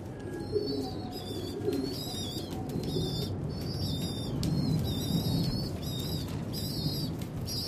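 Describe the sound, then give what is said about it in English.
Pigeons near their nest of newly hatched squabs at Blackfriars Bridge: soft low cooing and bursts of wing flapping, with repeated short high-pitched calls sounding over a steady background. “Nearby in Blackfriars Bridge, one of the squabs has just hatched. And the second isn't far behind.”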